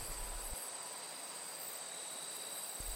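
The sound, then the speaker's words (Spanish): Steady high-pitched chirring of crickets and other insects in a cornfield on a cool autumn night, a continuous, even drone that holds unchanged throughout. “Puedes escuchar insectos y bichos revoloteando por ahí.”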